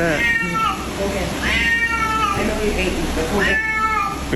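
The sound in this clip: An unhappy, chunky male cat meows in a pool, giving several drawn-out, wavering cries with rising and falling pitch, loud against steady background noise, with voices also present.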